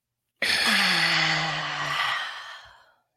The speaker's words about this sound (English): Take a deep breath in.